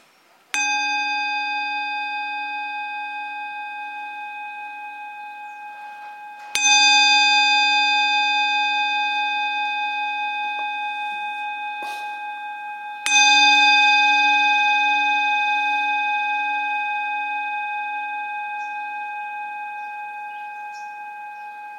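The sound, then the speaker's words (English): Meditation bell at a Dhamma retreat, rung to calm the mind: three strikes at even intervals, each a bright, clear ringing tone over a low hum that sustains and slowly decays. “please listen to the sound of the bell in order to calm down your mind.”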